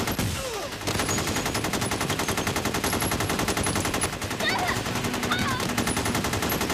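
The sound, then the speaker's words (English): Continuous automatic gunfire during a shootout outside a bank, rapid and unbroken, loud and steady throughout. “Firing non-stop.”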